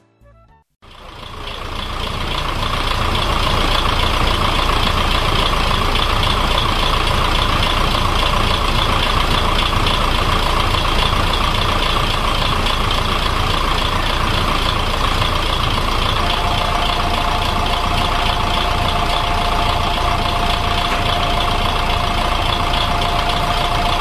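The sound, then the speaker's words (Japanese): A train engine rattles and drones inside the passenger car as the train leaves Katsuta Station, recorded on board: a loud, steady clattering roar that runs throughout, with a faint steady tone joining in the later part. “エンジン音はそのままなんですけど、これ乗った時のちょっと勝田駅を出発する時の、これ車内で撮ったんですが、ちょっと音を聞いていただきたいと思います。そのカラカラにちょっと注目をしていただければと思います。”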